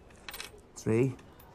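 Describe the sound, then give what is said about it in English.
Coins are dropped onto a ticket office counter in a short burst of metallic clinks and jingling. The sound is brief and fairly soft. “Try to get rid of my coins.”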